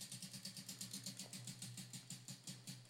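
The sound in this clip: A prize wheel spins with a rapid, even run of many clicking ticks, faint and regular from start to finish.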